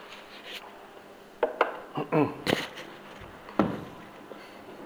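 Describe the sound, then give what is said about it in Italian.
A speaker pausing mid-talk to take a drink makes a few soft clinks, rubs and brief handling noises, scattered and fairly quiet against a low background. “Scusate, bevo. Grazie.”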